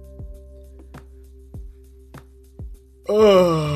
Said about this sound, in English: I'm yawning.